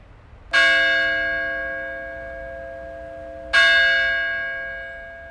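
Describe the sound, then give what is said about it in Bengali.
Two deep, resonant strikes of a church bell in Bengal, spaced a few seconds apart, each ringing out with a bright metallic attack and a long, slowly fading hum, with no voices. “একটু পরেই চার্চের ঘণ্টাটা ঢং ঢং করে বেজে উঠতেই শঙ্খদা”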